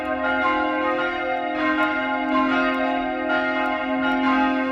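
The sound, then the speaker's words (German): Church bells cast by the Bachert foundry are rung by hand with ropes for the midday ringing in Utting. Several bells strike in overlapping, rhythmic peals, producing a loud, continuous wash of ringing tones. “Per Seilzug werden sie, wie in alten Zeiten, weiterhin noch von Hand geläutet. Das Mittagsläuten aus Utting von Michael Mannhardt.”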